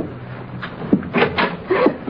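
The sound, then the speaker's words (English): A door is opened into a dark bedroom, heard as a few muffled wooden clunks and a brief scrape of the latch and hinge, spread over about two seconds at moderate loudness. “Open the door.”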